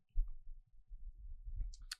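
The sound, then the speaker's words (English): Computer mouse clicks: a few faint, short clicks over quiet low thumping, with one sharper, brighter click near the end. “I just clicked away from it.”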